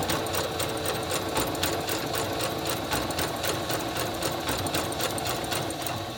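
A sewing machine stitching a seam with bobbin and top thread: a steady, rapid mechanical whirring with an even rhythm of needle strokes, running without a break and with no talking.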